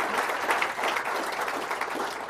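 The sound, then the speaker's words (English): Live audience applause for a speaker after a financial talk, dense and even clapping that holds steady throughout. “Before we do, let's hear it for Howard Marks and sharing his insights.”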